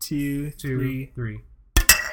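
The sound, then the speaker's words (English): Two drinking vessels clinked together in a toast, giving two bright, sharp clinks in quick succession right after a person speaks briefly. “I have two drinking vessels here, so. Oh, so you're gonna clink them together?”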